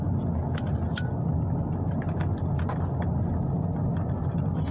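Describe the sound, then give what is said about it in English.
A car drives on the road toward Atlanta with a constant low engine and road rumble. A few faint clicks sit on top of the drone. “Back on the fucking road again. Gonna do some running around. Gonna drive through fucking Atlanta and come back.”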